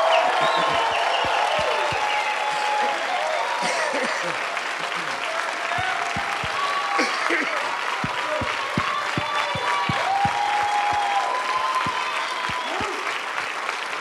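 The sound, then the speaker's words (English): A church audience applauds and cheers in a dense, steady wash of clapping that lasts throughout, with scattered whoops and shouting voices rising above it. “I want you to scream and holler and cheer and whoop and whatever noise you want to make to let Pastor Benny and Kelly”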